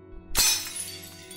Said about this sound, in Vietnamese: Sau tiếng cút đi đó là những âm thanh đổ vỡ của chén dĩa son nồi bị ba nó trong cơn say đập phá không thương tiếc.